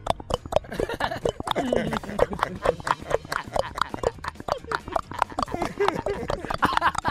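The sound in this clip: Someone runs in platform stack-heel shoes while fleeing police, making a rapid, steady clatter of hard clacking footsteps much like hoofbeats. Voices are heard over the steps.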